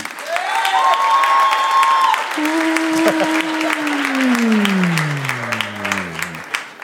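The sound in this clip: Audience applause on a quiz show, a continuous dense clatter of clapping that holds steady throughout, while sustained electronic tones slide gradually downward in pitch over it.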